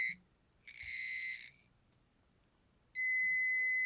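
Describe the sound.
A handheld light-sensing device beeps electronically as it is pointed at a ceiling fluorescent light: a short beep, then a tone of about a second, a pause, and a loud sustained high tone to the end.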